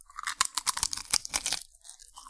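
Crunchy food being chewed close up for ASMR, with many rapid, irregular crisp crunches and bites that are loud and dry, without talk.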